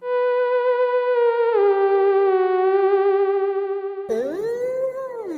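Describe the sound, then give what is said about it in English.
A theremin holds a smooth, pure electronic tone with gentle vibrato. It steps down slightly in pitch partway through, then swoops sharply down and back up near the end. “Theremin. Is a theremin a musical instrument or an animal? It sounds like this.”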